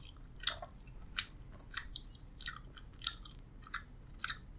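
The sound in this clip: Crunchy chewing on a hard, dried slice of huangjing (Polygonatum), a herbal root steamed and sun-dried nine times. Many crisp, brittle bites crackle at an irregular pace, fairly faint, with no talk.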